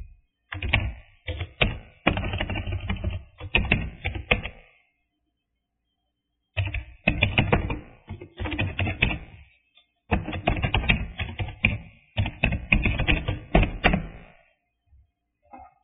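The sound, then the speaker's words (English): Someone writing a name by hand, heard as scratchy writing strokes in several dense bursts separated by short silent pauses, loud and dry, with no talking. “I will write the name.”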